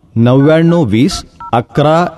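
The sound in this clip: Telephone keypad tones sound as a phone number is dialed. A few short, bright beeps follow a stretch of someone speaking.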